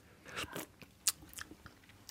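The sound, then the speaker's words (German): A person eats a hot, runny green paste like pesto from a long spoon, making soft mouth and chewing sounds. They are faint and irregular, with one brief sharp high tick partway through. “Ich habe hier einen langen Löffel und jetzt die Pampe probieren.”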